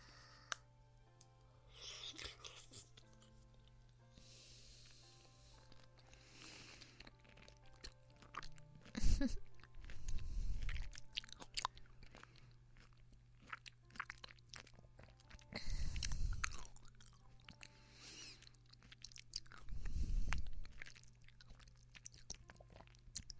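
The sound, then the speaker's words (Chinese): Someone chews a bite of snack food, producing faint, crunchy bites and mastication in a few separate bursts of chewing with quiet gaps between them. “那这一口啊，我吃掉，不给你吃”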